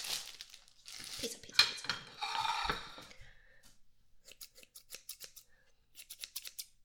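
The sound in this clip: Kitchen scissors cut bacon for a homemade pizza. Louder rustling and crinkling come first, then a quick run of many light, crisp metallic snips in a fairly regular rhythm.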